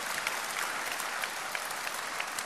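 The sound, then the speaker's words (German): Warm applause from an audience welcoming a guest at a seminar, with dense, even clapping held at a soft, steady level throughout. “Dann gebe ihm nochmal einen herzlichen Applaus.”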